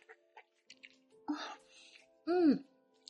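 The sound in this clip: Wet eating sounds from banana ice cream, a few soft clicks and smacks followed by a louder slurp with a brief voiced murmur.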